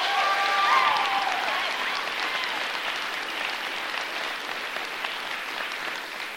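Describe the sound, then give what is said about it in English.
Audience applause at a tenants' town hall: a steady wash of many hands clapping together, loudest at the start and gently easing off over about six seconds. “So please put your hands together for all of that work.”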